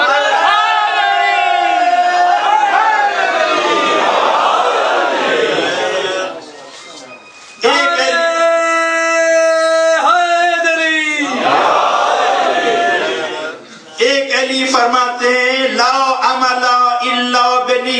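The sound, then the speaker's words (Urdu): A crowd chants the Nara-e-Haideri slogan, Ya Ali: loud, sustained surges of massed voices, broken by two brief dips in volume before the chanting swells again. “ہم کیوں نہ نعرہ حیدری لگا کے یا علی کی صدا بلند کریں؟”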